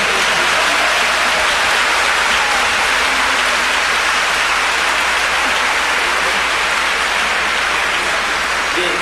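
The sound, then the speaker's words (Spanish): Loud, dense audience applause at a symphony orchestra concert, a thick and even wash of clapping that holds steady for nine seconds with no talk. “Ahora recibiste los aplausos con el bisnieto de Román”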